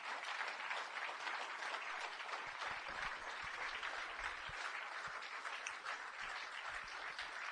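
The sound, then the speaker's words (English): An audience clapping after a poetry reading: a soft, continuous patter of many hands that stays even and unbroken throughout, with no voices over it. “I know it's awkward, that, isn't it, at the end, because you don't really want to clap at that, but it's fine, because poets are like fairies. If you don't clap, we die.”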